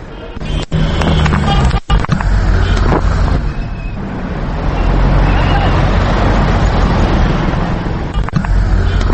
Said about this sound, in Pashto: دلته د بسونو او وړو موټرونو د ماشینونو غږونه اورېدل کېږي.